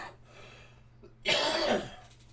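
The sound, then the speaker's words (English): A rough throat-clearing cough comes in one short, loud, harsh burst, preceded by a faint, steady hum. No talk is heard. “Once again, got that frog in the throat.”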